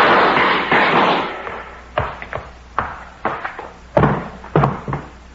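Gunshots ring out in a tense armed standoff: after a stretch of broad hissing noise comes a rapid series of sharp, loud bangs, each short with a quick decay, spaced unevenly over a few seconds.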